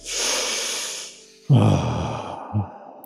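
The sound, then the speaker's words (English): A deep breath is drawn in as a soft, airy inhale of about a second. After a short pause comes a heavier, sighing exhale that tails off with a small final puff. “Did you all take in a deep breath? Breathe out.”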